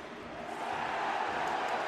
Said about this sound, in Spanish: Tajuri Shradi comete una falta sobre Zubaric. El público pidiendo tarjeta amarilla.